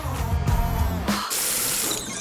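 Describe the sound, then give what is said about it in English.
Cold shower running: a steady hiss of spraying water that swells into a fuller, brighter rush partway through and carries on alone. “Nothing humbles you like a cold shower.”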